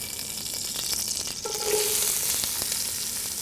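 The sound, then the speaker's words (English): Onions sweat in olive oil with a tablespoon of butter for a three bean minestrone base, giving a soft, steady sizzle and hiss throughout with a brief stirring sound midway. “Our onion, we're going to cook this down for about 10 minutes and sweat the onions until they're soft. We're also using a tablespoon of butter with the olive oil.”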